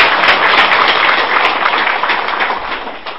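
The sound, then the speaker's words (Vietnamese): Sustained applause from a Buddhist lay audience for a monk, dense and loud at first, then gradually fading toward the end. “Dạ chúng con cũng xin xin các quý Phật tử trong một tràng vỗ tay để tri ân thầy.”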